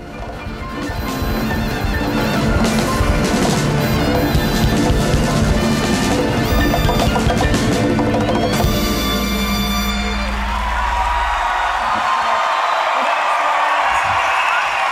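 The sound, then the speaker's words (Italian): Audience applause after a live concert performance: instrumental music fills the first ten seconds, then dense, steady clapping takes over and carries on to the end. “Applausi meritati.”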